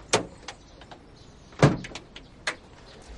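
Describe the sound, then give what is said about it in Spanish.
Van doors being shut: a few sharp, fairly quiet thumps and clicks at irregular intervals, two noticeably louder than the rest, over a low steady background. “Él le da las llaves y cierra las puertas.”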